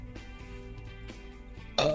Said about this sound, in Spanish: Pero ese es un eructo después de comer, ¿viste? Cuando parece que te has comido todo el asado, ¿viste? Que sale medio como forzado.